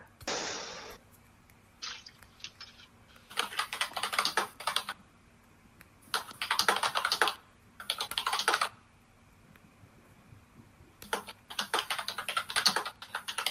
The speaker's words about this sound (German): Schreibst du gerade übers Formular? Oder schreibst du direkt Nachricht?